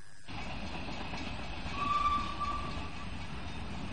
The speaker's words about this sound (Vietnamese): xe lửa đã vượt ra khỏi London, đang lao vun vút qua những cánh đồng